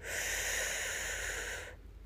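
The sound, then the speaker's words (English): A deep breath drawn in during a guided relaxation exercise, a loud, airy hiss held steadily for under two seconds before cutting off. “Let's do the breath first. Take a deep breath in.”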